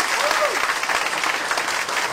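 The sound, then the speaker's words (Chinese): Audience applause from listeners at a talk, loud and dense clapping that stays steady throughout with a bright, even texture. “给自己这么聪明的智商，那个掌声鼓励一下。”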